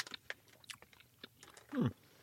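Faint crunching and chewing of Razzles, a chalky candy that turns into gum, with many small irregular crackles followed by one louder, grinding crunch.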